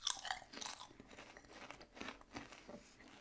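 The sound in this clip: Potato chips being crunched and chewed during a chip tasting, a run of brittle bites and mouth crunches at a fairly faint level with no talk.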